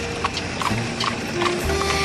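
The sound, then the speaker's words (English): Horse hooves clip-clop in a steady, even rhythm as the horse pulls a buggy through Central Park. The hoofbeats are moderately loud over a constant low rumble. “I can't believe you actually talked me into this. A buggy ride in Central Park.”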